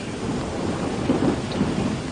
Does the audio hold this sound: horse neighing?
no